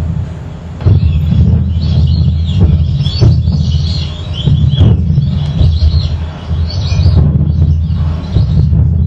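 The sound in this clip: Bird calls from white-faced ducks and coscoroba swans playing in a wetland: scattered chirps and calls repeat over a continuous low rumble for the whole stretch.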